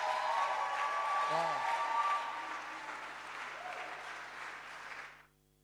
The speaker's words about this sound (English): Why don't you put our hands together and welcome our lady pastor, MFR, to bless us with a testimony.